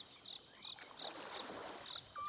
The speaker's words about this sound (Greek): Γρίλοι που υποδέχονται τα τζιτζίκια.